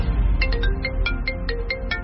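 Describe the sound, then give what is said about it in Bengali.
A mobile phone ringtone rings out, a quick series of many short, bright melodic tone bursts repeating at a steady rhythm over a low background hum. “তুষারের phone বাজতে শুরু করল। তুষার দেখলেন prime minister phone করছেন।”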